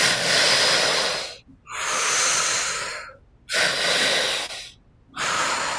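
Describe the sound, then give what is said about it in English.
Deep, loud, airy breathing in four long bursts separated by brief silences, following a pattern of inhaling into the belly, then the chest, then exhaling through the mouth. “So the breath is into the belly first, up into the chest second, out through the mouth third.”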